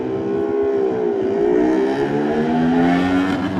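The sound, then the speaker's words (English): A 350cc Honda K4 racing motorcycle pulls away from the start on Glencrutchery Road at the Isle of Man TT. Its loud engine note climbs, dips briefly at a gear change, then climbs steadily again. “But John McGuinness about to head off on the number one machine, ready to go down Glen Crutcher Road, the 350 K4 Honda Steadplan Racing. And away we go.”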